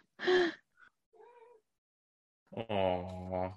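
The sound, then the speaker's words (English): A house cat meowing for its food at feeding time: a few meows, a short sharp one first, then softer brief calls, ending in a long, loud, drawn-out meow, with no talking. “Yeah, that was my cat timer. Hold on, I can feed him remotely. Can y'all hear him?”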